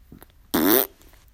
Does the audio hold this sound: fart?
yes

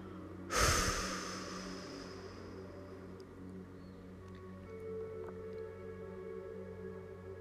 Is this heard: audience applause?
no

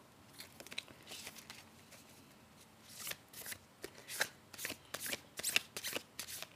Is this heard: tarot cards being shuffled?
yes

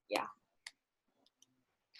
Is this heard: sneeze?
no

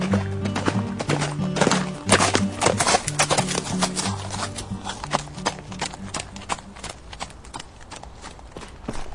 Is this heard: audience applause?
no

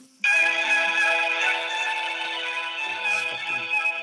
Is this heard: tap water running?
no

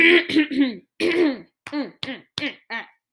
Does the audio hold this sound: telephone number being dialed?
no

